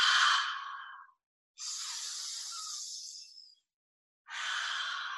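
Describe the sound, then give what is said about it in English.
Deep breaths drawn in and out during a guided meditation: three long, airy rushes of breath separated by brief silences, soft and steady with no voices. “20 huge, juicy breaths. Deeply in, deeply out.”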